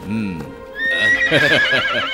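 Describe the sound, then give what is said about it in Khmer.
A horse neighs loudly in a high, wavering whinny that climbs into a shrill, drawn-out cry. “នេះជាសេះល្អ”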